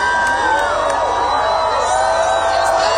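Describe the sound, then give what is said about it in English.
Spectators in Mazatlan, Mexico cheer and whoop as the total solar eclipse turns midday to darkness. A dense, loud roar of shouting voices with high-pitched yells holds steady throughout. “The total solar eclipse began in Mexico, where spectators in Mazatlan cheered when it turned to darkness in the middle of the day for more than 4 minutes.”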